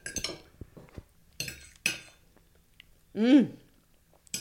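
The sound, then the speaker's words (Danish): Cutlery clinks against a plate as someone tastes freshly made fluffy pancakes, with a few sharp metallic taps and soft eating sounds, then a brief appreciative hum; people talk around the clinks. “Jeg prøver lige at smage.”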